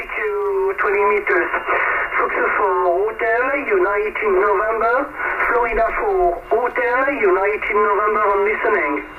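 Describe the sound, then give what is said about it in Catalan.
Amateur radio transmission of a call from France: a narrow, tinny voice talks continuously with the muffled, band-limited quality of a radio receiver, with short pauses between phrases. “Aquest era el so, aquest era el so de la ràdio en aquell moment”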